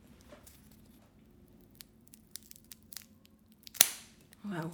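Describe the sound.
A cigar being cut makes one crisp, sharp snap near the end, preceded by faint scattered ticks and crackles in an otherwise very quiet setting.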